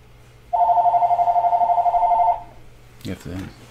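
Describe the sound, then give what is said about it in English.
A mobile phone rings with a loud, steady electronic tone that pulses rapidly for about two seconds and then stops. A voice speaks briefly afterward. “I'm going to turn this damn ringer off.”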